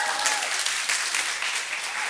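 An audience applauds during a church service, honoring confirmation students who came to worship; dense, even clapping from many hands carries loudly and steadily without a break for the short stretch.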